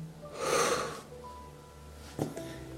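A deep breath during a guided breathing exercise: a soft, airy intake lasting about half a second, then quieter breathing out. The breathing is faint overall, with no talk.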